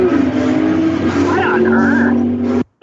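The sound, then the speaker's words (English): Motorcycles racing nearby make a loud, steady engine drone with a strong low hum while a voice talks over it. The noise cuts off abruptly near the end. “That's just the motorcycle racing near me.”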